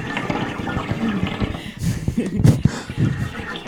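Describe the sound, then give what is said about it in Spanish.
Bubbles gurgle in a metal can, made as a washing-machine costume sound effect, in irregular watery bursts that are moderately loud and sustained throughout. “pues eso son burbujas en la lata.”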